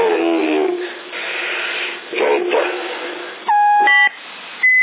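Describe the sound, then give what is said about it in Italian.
Electronic beeps on a CB radio channel, heard as a few short, steady, loud tonal bleeps near the end, following muffled, band-limited talk. “ma un bip in sottofondo”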